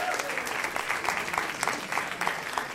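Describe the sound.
Audience applause welcoming a storyteller on stage at an evening storytelling event: dense, sustained clapping with scattered sharper claps standing out, steady in loudness throughout.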